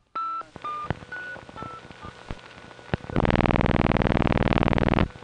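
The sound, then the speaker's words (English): A telephone rings after a run of short, electronic keypad dialing beeps. A loud, buzzing, warbling ring tone then sounds for about two seconds before cutting off. “Phone's ringing. Better see who it is.”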